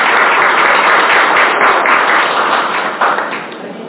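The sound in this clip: A meeting audience applauds at a swearing-in session with dense, loud, steady clapping that fills the whole stretch and eases slightly toward the end.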